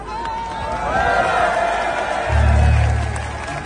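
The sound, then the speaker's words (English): Crowd of protesters in France at a massive weekend demonstration, a dense, continuous roar of many voices and shouts that swells toward the end, with a low steady hum entering partway through. “Well, as you can hear, that is France. And if you can see this, you can see the massive turnout of people protesting over this last weekend.”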